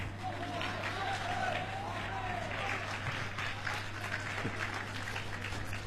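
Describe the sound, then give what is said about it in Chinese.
Audience applause fills a crosstalk comedy performance in Tianjin, a dense, steady clapping that continues throughout at an even level. A voice is briefly audible over the clapping near the start. “首先感谢大家热情的掌声。”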